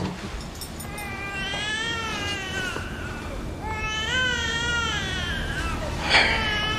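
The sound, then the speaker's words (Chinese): A baby girl cries in two long bouts of high, wavering wails, then gives one brief sharp outburst near the end. The crying is loud and continuous over a low background. “你看这小妞在咱们这儿啥时候哭成这样了？”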